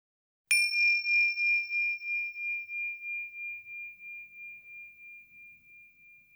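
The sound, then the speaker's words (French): A small bell is struck once to start a meditation exercise, giving a clear high ring that lingers and slowly fades with a gentle pulsing shimmer, alone in silence. “Et quand tu entends la clochette, nous commençons l'exercice.”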